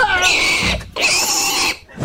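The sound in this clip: A piglet squealing: two long, loud, shrill squeals, each close to a second, separated by a brief gap.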